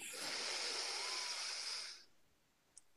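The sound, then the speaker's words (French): A deep inhalation during a breathing exercise: a long, airy hiss of breath drawn in for about two seconds, then near-silence with a faint click. “Alors, une respiration, inspirée à fond, comme moi”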